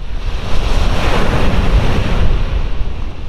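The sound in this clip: Cold wind and surf on the beach at Hammonasset: a loud, continuous roar of breaking waves mixed with gusting wind buffeting the microphone, with no voices.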